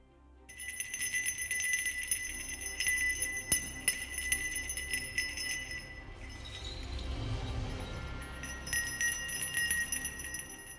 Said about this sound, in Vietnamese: Trang Pha nói đoạn thì cười lớn, chuông bạc trong tay rung lắc